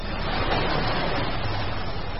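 Sea waves make a continuous, even rush of surf, a dense, steady wash of noise without clear breaks or separate crashes, fairly loud throughout.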